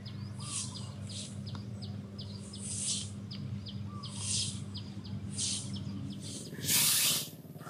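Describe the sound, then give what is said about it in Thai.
Forest-temple monks sweep a temple courtyard in the afternoon. Brooms make repeated soft, rhythmic swishes, with a louder, hissier stroke near the end, while birds chirp and tweet faintly in the background. “การกวาดลานวัดเป็นกิจกรรมในช่วงบ่ายที่พระสายวัดป่าถือปฏิบัติเพื่อเจริญสติใช้ความเพียรเผากิเลสลดอัตตารักษา”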